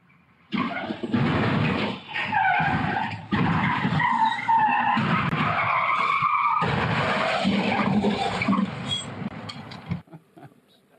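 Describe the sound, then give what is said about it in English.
A red and black tow truck carrying an unsecured pickup on its flatbed skids as it speeds around a corner, tires giving a loud, continuous screech with engine roar for about ten seconds before it cuts off. “Apparently, the tow truck driver was stealing the pickup that was on its flatbed, but it wasn't properly secured as he started driving away. The video, it's gnarly. It's dramatic.”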